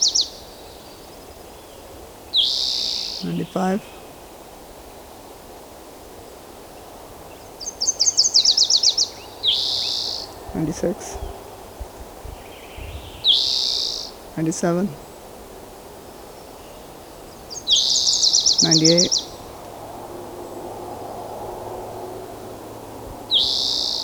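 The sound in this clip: A bird calling repeatedly: high, thin chirping calls in short bursts that recur every few seconds over a steady background hiss, with occasional sharp clicks between them.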